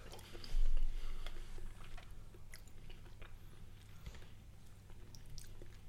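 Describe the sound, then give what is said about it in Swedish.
Soft chewing and crunching of Arla butter with large sea salt crystals, small crisp clicks scattered through a faint, close mouth sound, loudest near the start and then settling into quieter, irregular bites. “då tar vi Arlas med havssalt. Ja. Det här kan jag tycka är lite gott. När man får lite större saltkristaller.”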